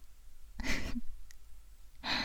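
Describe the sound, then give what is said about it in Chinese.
Heavy, open-mouthed breathing: two loud, breathy exhalations like sighs, separated by a quiet pause, in a soft close setting. “仅仅是被我舔耳朵，就需要这样大口的呼吸了吗？”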